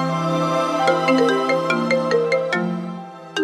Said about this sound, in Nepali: भाउजूले उसँगै हुँदा फोन गर्नुभयो